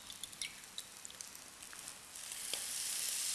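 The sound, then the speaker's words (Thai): Eggs sizzle in a frying pan as they begin to set. A faint, steady hiss is dotted with many tiny crackling pops and grows slightly louder toward the end. “เห็นไหมครับก็ไข่ก็จะเป็นไงครับเริ่มสุกนะไข่ก็ไม่แหลกนะครับ”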